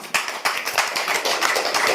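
Hesitant clapping comes from an audience, starting with a few separate, sharp claps and gradually thickening into a denser, still fairly light patter of hands.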